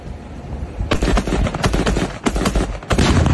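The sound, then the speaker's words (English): Several sharp gunshots fired at an exploding target, with loud cracks in an irregular burst and a few more spaced shots later on. “It took a few shots before he actually... got what he was going for.”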